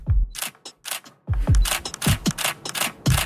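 A camera shutter clicks in a rapid series of many sharp, crisp snaps, falling into two bursts split by a short gap.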